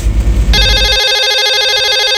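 A telephone rings with a bright electronic ringtone that cuts in abruptly after a brief low rumble. It then sounds loud and steady with a rapid pulsing warble, heard alone.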